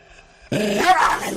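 A German shepherd dog growls: after a short quiet lead-in, a sudden loud, rough snarl starts and holds for about a second, raspy and throaty.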